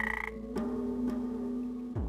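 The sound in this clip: A frog croaks while being irritated to release poison: a rapid pulsed croak, then a sustained low droning croak broken by a few sharp clicks, moderately faint.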